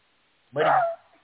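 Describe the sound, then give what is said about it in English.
A dog gives a single short, full bark in an otherwise quiet moment. The bark is loud and lasts under half a second, with a faint trailing whine as it fades. “What you barking at, dog?”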